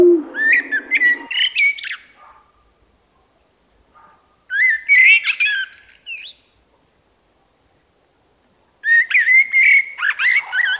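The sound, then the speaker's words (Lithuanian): A Eurasian blackbird sings its flute-like song in three clear bursts of warbling, whistled phrases, each separated by a few seconds of silence, loud and alone. “Turbūt vienas iš nedaugelio paukščių, kurių iš tikrųjų laukia ir gamtininkai, todėl kad juodojo strazdo nepaprastai graži fleitiška giesmė.”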